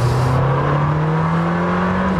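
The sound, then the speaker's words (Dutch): An Italian sports car's V8 engine accelerates hard in a continuous loud roar, its pitch climbing steadily throughout with a dense, rough rasp and no talk over it. “Helaas de V10, hè, die we kennen uit de Gallardo en de Huracan en een paar Audi's. Die is er niet meer, maar ze hebben het goed gemaakt, deze V8.”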